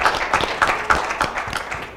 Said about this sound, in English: Give him a nice hand of applause of appreciation.